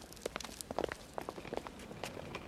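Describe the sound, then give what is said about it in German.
Light footsteps walking toward a ticket counter at a railway station, a long irregular series of soft, quick steps heard faintly and alone. “Wir müssen zum Schalter gehen und fragen. Ja, komm.”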